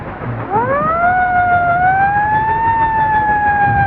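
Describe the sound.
A police siren wails as officers catch up with a speeding car: a loud rising whoop that levels off into a sustained, high steady tone, heard alone without talk.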